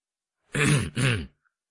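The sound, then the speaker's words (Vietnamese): A man abruptly clears his throat in two short, guttural bursts separated by a brief pause, with silence around them. “Ông Gerard húng hắng đột ngột, với một vẻ phạm lỗi”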